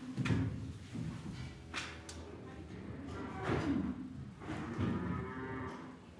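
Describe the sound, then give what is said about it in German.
Dairy cows mooing in a barn stall: several low, drawn-out moos rise and fade one after another, with occasional knocks and clatter between them. “Die Milchkuh soll gemolken werden und kommt zurück in den Stall zu den anderen Kühen.”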